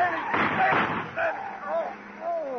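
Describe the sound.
A gunshot sound effect in a radio crime drama comes as a short, harsh blast of noise early on, surrounded by urgent voices talking.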